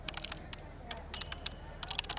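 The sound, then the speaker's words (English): Typing on a computer keyboard: faint, irregular key clicks come in quick bursts with brief pauses between them. “I feel like when they type, they have to do everything twice. It seems to take forever.”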